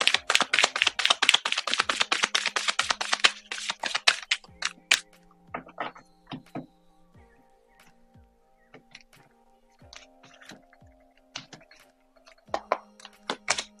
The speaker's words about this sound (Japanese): じゃあ、マッチの、オラクルカードの方、引いていきますね。お待ちください。